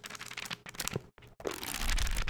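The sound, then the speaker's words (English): Papers folding, the pages of a small Bible, give a dry rustling and crinkling that briefly drops out partway, then returns louder and more continuous. “do you hear those papers folding?”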